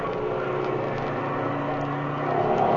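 Fighter plane engines during an aerial dogfight, with a Messerschmitt in the fight, heard as a steady, muffled propeller drone that swells slightly louder near the end.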